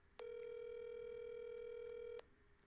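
Ringback tone of an outgoing phone call going unanswered: one steady, faint electronic tone holds for about two seconds, then stops, leaving quiet.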